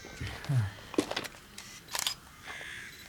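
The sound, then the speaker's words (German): Camera shutter clicks as someone photographs a spot where bloodstains were scrubbed away. A few faint, sharp clicks come at uneven intervals over a quiet background. “Ich halte den Zustand mal fest und mache ein paar Fotos, okay?”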